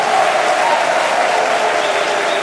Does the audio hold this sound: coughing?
no